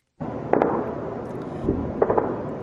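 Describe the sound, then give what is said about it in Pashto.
Gunfire from rifles and heavy weapons during fighting in Ramadi, Iraq: a few sharp cracking reports over a constant rumbling wash of noise. “دا د ټوپکو تندو وسلو د ډزو اوازونه دي چې د جمعې په ورځ په رمادي کې د جګړو په مهال اورېدل کېدل.”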